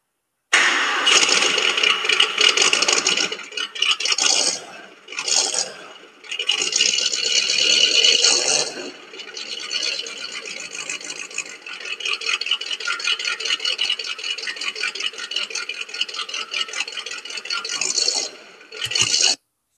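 A 1967 Ford Shelby Mustang GT500 engine starts and revs, a loud, rough, raspy roar that surges and dips through several brief lulls before cutting off near the end, with no talk.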